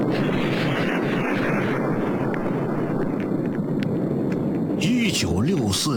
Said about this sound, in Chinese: 1964年10月16日，程开甲他们付出巨大心血的中国第一颗原子弹爆炸试验取得圆满成功。